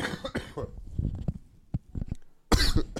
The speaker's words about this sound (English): Excuse me. I thought I was going to be okay. Got a little cough there.